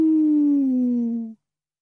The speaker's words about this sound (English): The distant howl of a lone wolf prowling restlessly in the depths of the forest that stretched away beyond the ancient castle's moonlit walls rose, then faded on the warm night air.